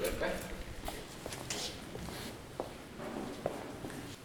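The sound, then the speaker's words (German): Footsteps climbing stairs to the first upper floor of a converted tobacco factory building: a few soft, irregular steps and scuffs over a steady background murmur of voices. “Okay, dann gehen wir mal einen Stock weiter rauf, bitte.”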